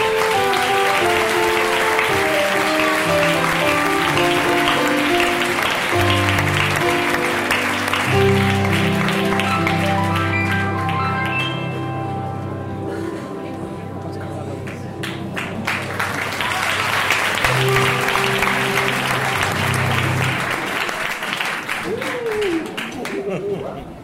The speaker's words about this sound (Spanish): así que recibamos con un fuerte aplauso a la actriz Concha Goyanes, que nos hablará de este largo